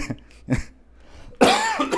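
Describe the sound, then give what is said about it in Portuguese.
Coughing from a man coming down with a flu: two short, sharp coughs a half-second apart, a pause, then a longer, harsher rasping cough that trails off raggedly. “Desculpa a minha tosse, eu tô ficando gripado.”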